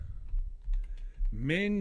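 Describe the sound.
Typing a reply on a computer keyboard: a quick run of soft key taps with low thumps, followed by a person's voice at the end.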